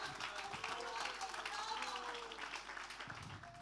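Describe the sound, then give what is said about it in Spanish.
A church audience applauds in praise during a worship service, a soft, steady wash of clapping that holds throughout with a voice sounding over it. “Bendito Dios. Fuerte ese aplauso de alabanza al Señor.”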